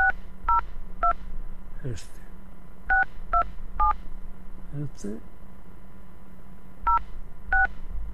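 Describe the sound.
Telephone keypad tones beep as someone dials while calling an automated phone line. There are eight short, clear beeps, grouped three, three and two, with faint electronic chirps between the groups.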